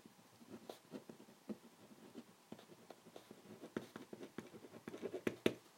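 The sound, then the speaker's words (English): Pen scratching on paper while writing a title: many faint, quick strokes and taps in an uneven rhythm, growing slightly busier and louder toward the end. “let me just get this piece of paper here. Okay, get the pen. And here we go. Okay, so the structure and function of DNA, let me just write the title.”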